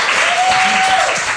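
A short burst of audience applause: dense, even clapping that stays at a steady level for about a second and a half.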